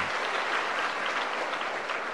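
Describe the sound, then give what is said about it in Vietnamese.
Many young people at a Buddhist retreat give a round of applause, a thick, uniform patter of clapping that stays steady and moderately loud from start to finish, with no talking. “Xin các em cho một tràng pháo tay.”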